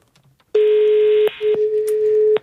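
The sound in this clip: Ringback tone on a phone call to an airline company: two long, steady, mid-pitched buzzing tones separated by a short gap, the second tone longer than the first, with no talking over them.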